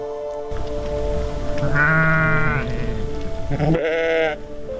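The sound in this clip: Sheep bleat in a flock where ewes have just lambed. Two long, wavering bleats stand out over a steady background of lower, continuous bleating.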